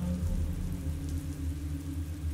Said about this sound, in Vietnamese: Mưa gió thổi hắt vào ngọn đèn cậy trong căn phòng tắt ngúm đi.